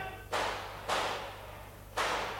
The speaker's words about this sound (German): Das sind doch Schüsse.